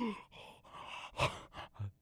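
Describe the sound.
A man's voice imitates the heavy, wheezy breathing of an old hound dog with a bad leg, a few breathy huffs and rasping exhales, fairly faint.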